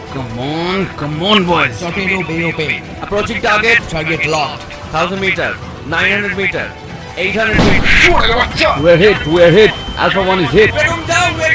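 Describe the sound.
Gunfire in a World War Two air battle over the Mediterranean, with bullets striking a plane: a harsh, noisy burst breaks in during the second half and runs to the end, mixed under continuous narration.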